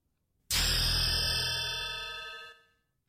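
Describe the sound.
A level-up ding from the video game EverQuest II: one bright, clear chime that strikes sharply, then rings and slowly fades over about two seconds, standing alone.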